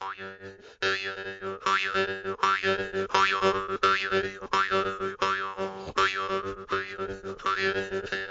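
A jaw harp, plucked and held against the teeth with lips closed around it, twangs many times in a steady rhythm, each springy buzz carrying a sliding, vowel-like overtone.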